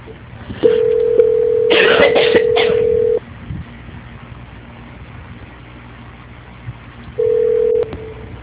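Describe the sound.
Telephone tones during a call transfer: a long, steady mid-pitched tone with short bright bursts over it, a quieter stretch of low hum, then a second, shorter tone of the same pitch.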